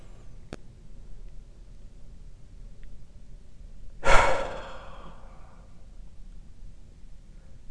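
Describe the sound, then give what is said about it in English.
A deep belly breath during a meditation exercise, ending in one loud, forceful, breathy exhale that rushes out and trails off over about a second against a quiet background. “Inhale the breath deep into your belly, and then forcefully exhale.”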